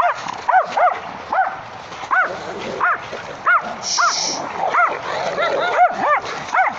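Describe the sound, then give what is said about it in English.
A dog barks and yips over and over in a quick, fairly regular rhythm. The barks are sharp and high-pitched and continue through the whole stretch. “You might have caught that then on the microphone, with George barking in the background.”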